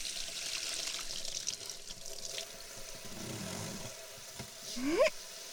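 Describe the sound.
Warm water runs steadily to rinse everything at the end, a faint, even, hissing rush that continues throughout.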